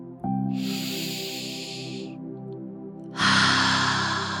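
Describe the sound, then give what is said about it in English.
A deep, slow inhale followed by a pause and then a fuller, louder breathy exhale, set against soft, steady sustained background tones. “With one last inhale and exhale,”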